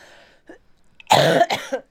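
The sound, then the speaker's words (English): Two loud, harsh coughs in quick succession from a sick person, preceded by a faint, brief vocal sound. “Excuse me for coughing on you.”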